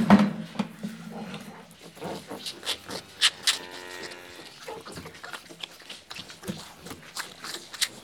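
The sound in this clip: Calves fighting over milk at buckets: a busy, irregular stream of knocks, scuffles and slurping noises that rise and fall without a steady rhythm, at moderate loudness throughout.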